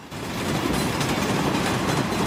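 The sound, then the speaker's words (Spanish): Sound effect of a train setting off: a continuous rumbling rail noise with quick rhythmic clatter over it, holding a steady loudness throughout. “Pasajeros al tren de Pequeño Ternasco. Esto se pone en marcha y no para.”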